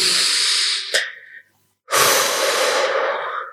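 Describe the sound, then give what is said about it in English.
A deep breath taken together: a long, loud airy inhale, then a short silent pause, then a strong, hissing exhale that slowly fades. “Big breath together.”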